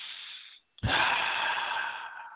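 Slow, deliberate breathing in and out during a guided relaxation exercise: a soft, fading airy breath, a brief silence, then a strong, steady rush of air that holds loud to the end.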